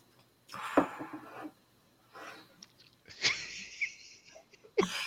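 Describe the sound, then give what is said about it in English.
A loud, deliberate exhale voicing exasperation: a few raspy, wheezy bursts of breath that swell and fade, separated by short quiet gaps. “I tried to exhale as loudly as I could then to show that I was having a feeling.”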